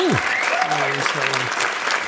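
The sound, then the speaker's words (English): A round of applause marking a ten-year milestone: steady, even clapping throughout, with brief gliding tones on top. “Let me give you another round of applause, bro.”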